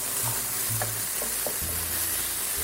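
Turmeric and other spices sizzle in a pan with eggs over low heat, giving a steady bright hiss of frying with a few soft stirring touches beneath it.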